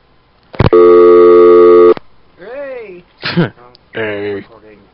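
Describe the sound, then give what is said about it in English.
Failed call to a hotel in Iran: a click, then a single loud, steady electronic phone tone lasting over a second, followed by brief vocal sounds. “Can't dial Iran. It's not letting me dial the Homa Hotel.”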